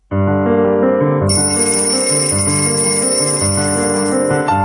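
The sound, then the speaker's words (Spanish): An alarm clock goes off at 6:30 in the morning with loud, continuous bell-like ringing. The ringing holds steady for the whole stretch without pausing. “Suena el despertador.”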